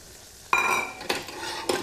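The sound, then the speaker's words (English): Three scraping stirs of flour being worked into melted butter for churros batter, each a short gritty sweep with a sizzling edge, spaced at a fairly even rhythm and moderately loud, with no talk. “So once the butter's melted, you can add all your flour.”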